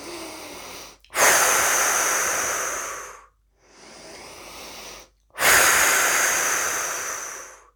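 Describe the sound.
Slow, deep breaths during a relaxation exercise. The long, airy breaths come one after another, two of them louder and rushing, with no talking.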